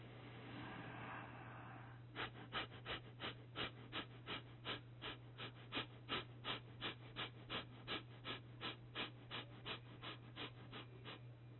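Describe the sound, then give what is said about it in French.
Rapid abdominal breathing through the nose, done with the head tilted down: many quick, evenly spaced breath pulses in a steady fast rhythm over a constant low hum, no talking. “Puis vous pourrez faire la même respiration abdominale par le nez, cette fois-ci sur un rythme rapide, en commençant avec la tête vers le bas. Respiration abdominale rapide.”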